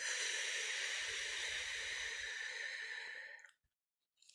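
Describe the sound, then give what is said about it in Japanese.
A slow exhale out through the mouth during a guided breathing exercise, breathing in through the nose and out through the mouth. One long, soft, breathy hiss fades after about three and a half seconds, then a brief silence and another breath begins. “もう一度鼻から息を吸って、口から吐く。”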